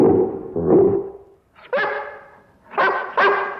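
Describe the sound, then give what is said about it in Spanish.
A Great Dane barks in a park, giving a few loud, deep barks with short pauses between them. The first calls are longer and lower, and the last ones are sharper and shorter. “El gran danés ladra. Está en un parque.”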